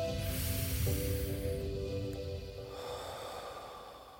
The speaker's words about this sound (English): And one last breath.